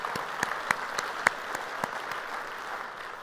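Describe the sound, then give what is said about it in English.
Applause from a church audience at the North Garnett campus welcoming other campuses, a steady, fairly soft patter of clapping with a few sharper claps standing out. “So if you would, here at North Garnett, put your hands together, welcome them to our conversation this morning.”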